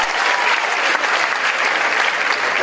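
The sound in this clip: Audience applause: a loud, dense, steady wash of many hands clapping that holds evenly from start to finish, with no voices over it.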